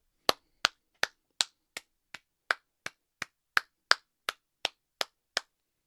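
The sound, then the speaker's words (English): One person gives a slow, evenly spaced clap: fifteen sharp, crisp hand claps. Each is separated by a short silence and lands at a steady, unhurried rhythm of roughly two to three per second. “long clap for you. Well deserved, man. Well deserved.”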